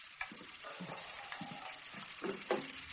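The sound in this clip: Food fries in a greasy pan in a smoky kitchen, a faint, steady sizzle broken by scattered crackles and sharper pops.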